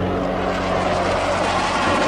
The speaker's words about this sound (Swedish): Ut längs med kusten, snabbt ut mot Atlanten och sen tillbaka. Planet har målats grönt, rött och svart.